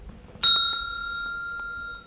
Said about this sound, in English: The bell went, and all the boys and girls went inside